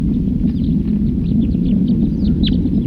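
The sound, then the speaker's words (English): A wild bird singing in song flight gives short, high chirps and thin sweeping notes, one louder near the end. They sit faintly over a heavy, constant low rumble. “Another wild bird. In flight, song flight.”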